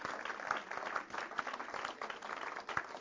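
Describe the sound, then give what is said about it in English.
Applause from an audience thanking Meals on Wheels volunteers: dense, steady hand clapping that holds at an even, fairly soft level for the whole stretch. “please stand so that we can give you all just a hand clap and tell you how much we appreciate what you did.”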